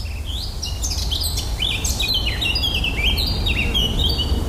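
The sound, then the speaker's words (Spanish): Birdsong fills a forest in New England in the northeastern United States, with high, quick chirps and whistled phrases repeating steadily over a low, constant background hum. “Así suena un bosque de Nueva Inglaterra, noreste de los Estados Unidos.”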